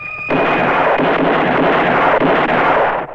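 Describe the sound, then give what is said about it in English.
Gunfire from a pistol fanned during a western shootout: a sudden, loud burst of shots that merges into a dense, continuous blast lasting about three seconds before cutting off. “Suddenly, Ramon and the others go to shoot. The stranger fans his pistol.”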